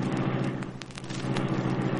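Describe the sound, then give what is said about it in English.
Steady, loud engine rumble of the Black Beauty, the sleek superpowered car in a Green Hornet drama, a constant low droning with light crackle and no clear surge. “Reed pressed a button. The great car roared into life.”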